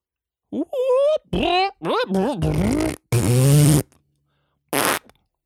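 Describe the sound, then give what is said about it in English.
A voice imitating vaguely Italian-sounding fart noises: several loud, buzzy, sputtering bursts with wobbling pitch, separated by short gaps, ending with one brief final burst. “he's just making vaguely Italian fart noises the whole movie, you know? Just like,”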